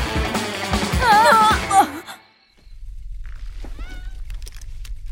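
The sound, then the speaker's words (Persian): A cat meows loudly in a few quick, wavering cries. After a short silence, a fainter meow follows over a low, steady hum. “بیا پیشی پیشی پیشی بیا.”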